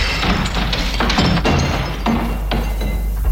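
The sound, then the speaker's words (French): A window pane being smashed to get in gives a few sharp knocks and crashes with glassy clinks, over a constant low hum. “Ah, oh, tant pis, je casse un carreau, j'entre par la fenêtre.”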